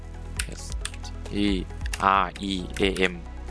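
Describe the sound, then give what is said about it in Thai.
Light clicking of keys on a computer keyboard as a search for Streamlabs OBS is typed, scattered taps under a man's speech. “ไปที่ Search ค้นหาแล้วพิมพ์คำว่า Streamlab OBS ครับพิมพ์ตามผมเลยนะครับ”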